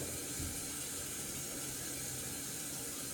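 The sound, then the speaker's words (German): Tap water runs steadily into a sink as someone washes before getting dressed, a constant rushing, splashing hiss that stays even throughout with no voices. “da ich mich jetzt anziehen will, möchte ich mich auch gerne waschen.”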